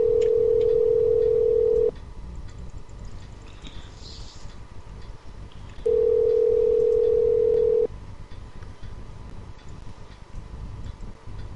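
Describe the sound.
Telephone ringing tone while a call is being placed: two long, steady, loud tones of about two seconds each, separated by a four-second quiet gap filled with faint low hiss and small ticks.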